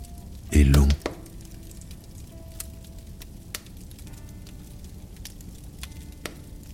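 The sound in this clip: A wood fire crackles over glowing embers. One loud burst near the start is followed by scattered faint pops and snaps over a soft, steady hiss.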